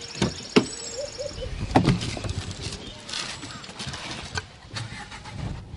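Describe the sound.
A car starting and driving off, with a few sharp clunks near the start and then a steady, low engine sound that carries on to the end.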